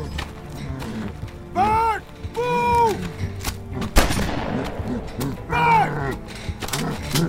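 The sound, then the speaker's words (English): A single loud, sharp gunshot is fired at the face of a charging creature, a sudden crack that stands out among raised, shouting voices before and after it. “Bert, and at the last second, he shot right at its face”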